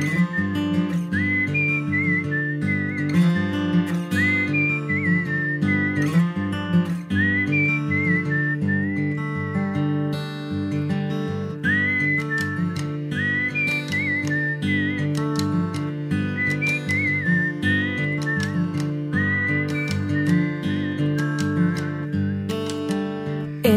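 Whistled tune by a man who whistles skillfully, a clear, high melodic line rising and falling in phrases over a steady musical accompaniment throughout.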